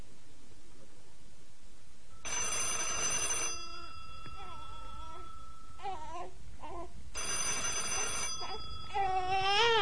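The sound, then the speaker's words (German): A telephone rings in two bursts of bright, repeated electronic tones with a pause between them. Wavering, babbling vocal sounds like a small child's fill the gaps between the rings. “Verdammt, jetzt auch noch das Telefon.”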